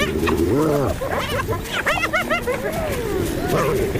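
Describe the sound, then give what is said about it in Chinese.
Spotted hyenas fighting, a loud, chaotic tangle of overlapping whoops, yelps and wavering cries that rise and fall continuously. “当其他斑鬣狗也加入战斗，胜利就是属于他们的”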